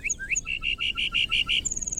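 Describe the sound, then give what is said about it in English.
Song of a lark bunting, a grassland bird of the northern Great Plains: a few quick varied whistles lead into a string of clear repeated notes, ending in a rapid buzzy trill. “Why do so many species of birds choose the northern Great Plains to raise their young? Like the lark bunting,”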